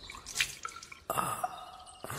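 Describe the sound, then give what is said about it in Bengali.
Water is poured from a vessel and dabbed onto someone's forehead and face, giving a faint trickle with a few soft, scattered drips and light splashes. “Ayesha একটা পাত্র থেকে একটু জল নিয়ে রাজপুত্রের কপালে মুখে দিতে লাগলেন।”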